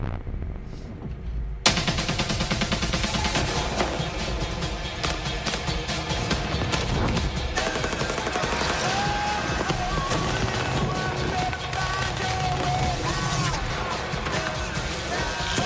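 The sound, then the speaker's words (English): Rapid gunfire and crashing effects from a video game trailer showing armed drones firing on people, forming a dense, unbroken barrage layered with sustained tonal sounds throughout. “Just showing a lot of this gameplay trailer of drones and firing on people”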